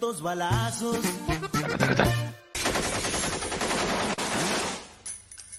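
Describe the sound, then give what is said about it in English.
Machine gun fire in loud, rapid bursts of dense automatic shots, broken by a brief pause partway through, then a long sustained volley that thins out and fades near the end. “You know how many balazos those are? Not 500 for sure, but dale.”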